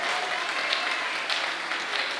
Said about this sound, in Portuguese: Essas palmas aí estão aparecendo.